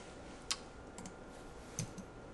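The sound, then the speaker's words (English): A few soft, sharp key clicks from a computer keyboard as the Windows key and F are pressed together, quiet and widely spaced, with no talk. “In Windows, I'm going to hit the Win key plus F to bring up search.”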